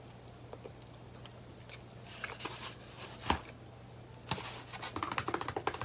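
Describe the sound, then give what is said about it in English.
Eating food with the mouth open, heard up close as wet chewing clicks and smacks that grow busier and louder toward the end, over a steady low hum. “Should not eat with my mouth open or full. But you know, I'm French.”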